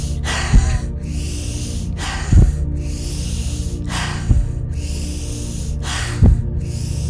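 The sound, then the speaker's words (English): Four deep breaths in a guided breathing exercise, evenly spaced and breathy, each rising briefly above a steady low drone that continues underneath. “And now we're going to do 5 more of those breaths together. Let's begin.”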